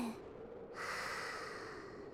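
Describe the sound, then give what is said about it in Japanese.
Soft deep breathing at the end of a warm-up exercise: a brief breath, then a long, steady, airy exhale, faint and even, with no talking. “じゃあ、最後に深呼吸。吸って、吐いて、”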